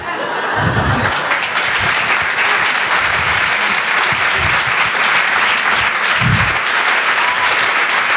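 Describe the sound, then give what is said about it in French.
Comedy club audience applauds a stand-up comic, sustained and loud, with scattered laughter and a few low thumps mixed into the steady clapping. “Vous pouvez l'applaudir très très fort, Flora Amara sur Rire et Chanson.”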